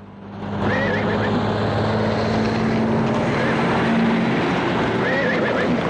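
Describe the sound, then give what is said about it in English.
Traffic whips past on a busy highway through steep mountains in a steady, rushing roar. A horse whinnies a few times over the noise, with no talk. “She rears up as traffic whips past.”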